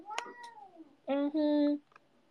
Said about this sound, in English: Cat?